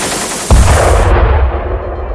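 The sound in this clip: Machine gun fire in a video game from the nose-mounted gun of a 14-bis biplane: a sharp, loud blast gives way to a heavy, sustained low rumble that fades slightly toward the end.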